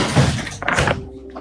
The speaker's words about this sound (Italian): Chiudo la porta, finestra.